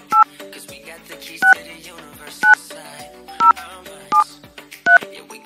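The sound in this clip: Touch-tone beeps from an indoor landline telephone as a number is dialed, six short, bright key tones at a slow, uneven pace with quiet gaps between them.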